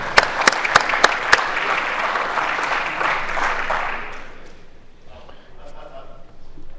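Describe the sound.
Senators applaud in the Senate chamber as a visiting county sheriff is welcomed, opening with a few sharp, loud claps before settling into steady applause that fades after about four seconds, with faint voices following.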